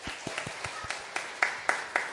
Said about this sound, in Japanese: はい、拍手しましょう。おめでとうございます。